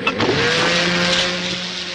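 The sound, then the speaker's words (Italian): A motorboat moves away across rather gloomy water, its engine giving a steady, tonal drone with a low hum that eases slightly in level toward the end. “questo non è il familiare suono e musica della motosega, ma è quello di un motoscafo che si allontana in delle acque abbastanza meste, in realtà,”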